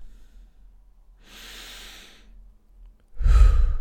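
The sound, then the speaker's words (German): Deep breathing during a guided breathing exercise: a long, airy breath in, a pause, then a louder, forceful breath with a strong low rush of air. “Noch fünf Atemzüge ein, aus, ein und aus.”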